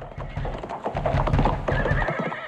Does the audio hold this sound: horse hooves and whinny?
yes